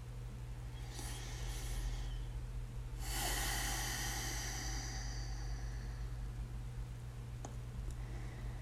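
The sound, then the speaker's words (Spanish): Slow breaths drawn in through the nose as part of a guided breathing exercise: two long, hissing inhalations, the second fuller and louder, followed by a small click, all over a steady low hum with no talking. “Ahora sí, cierra tus ojos y comienza a respirar por la nariz.”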